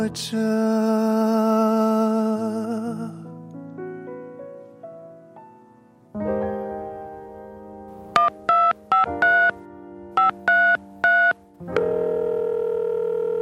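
Touch-tone telephone dialing: several short, bright two-tone beeps in two quick bursts, set inside a synth-like musical jingle that plays before and after them.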